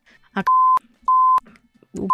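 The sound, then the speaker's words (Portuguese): Censor bleeps cover rude words in a stand-up comedy story: three flat, steady, high-pitched tones, each lasting about a third of a second, alternate with brief clipped fragments of speech. “Vamos bipar aí, vai ser o festival de bip.”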